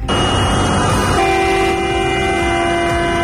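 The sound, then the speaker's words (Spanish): Car and bus horns honking in a traffic jam at the exit of Tenerife Sur airport, caused by a new parking protocol: loud, sustained blaring tones, with a second, steadier horn joining partway through. “En plena operación de vacaciones de verano, las pitas y las colas se suceden en aeropuertos como el de Tenerife Sur, donde AENA ha puesto en marcha un nuevo protocolo de estacionamiento que está provocando retenciones a la salida del aeródromo”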